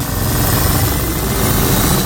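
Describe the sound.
Whirring, engine-like roar of a radio show's time machine sound effect starting up, loud and steady throughout with a dense mechanical hum and no voices.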